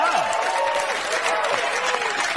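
Audience applause: dense, steady clapping from many hands that runs unbroken at an even, fairly loud level for the whole stretch.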